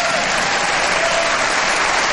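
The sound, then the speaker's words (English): State legislators break into loud applause in the chamber, a dense, continuous roar of many hands clapping that stays level and unbroken for the whole stretch. “Now that one got a few Republicans to actually applaud.”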